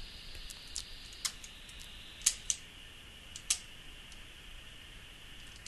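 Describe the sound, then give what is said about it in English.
A few faint, sharp clicks from a computer keyboard's space bar being tapped, spaced irregularly with quiet gaps between them. “All right, it is changing it. The space bar is changing it, but to change the higher low cut, you have to hold the space bar down.”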